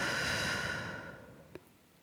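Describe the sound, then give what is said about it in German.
A deep breath during a relaxation exercise, breathing in through the nose and out through the mouth: a long, airy breath that slowly fades to quiet, followed by a faint click. “schließe die Augen und atme tief durch die Nase ein und durch den Mund aus.”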